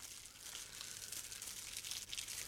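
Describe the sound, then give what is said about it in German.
Crackling of a fire being stoked with fresh fuel: dense, steady crackles and crunchy snaps run continuously at a fairly low, even level. “Wir wollen es neu prasseln lassen, Blümchen. Komm, wir legen frisch auf. Lass die Funken sprühen.”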